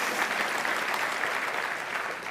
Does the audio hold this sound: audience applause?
yes